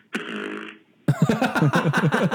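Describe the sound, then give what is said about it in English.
A fart left on a voicemail: a sustained buzzy blast lasting under a second, then a longer run of rapid, choppy sputtering bursts. “And a fart. That was a fart.”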